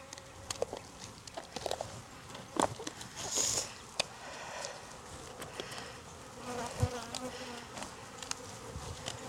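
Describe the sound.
Bees buzz around a beehive in a steady, fairly quiet drone, with scattered sharp clicks and light knocks running through it.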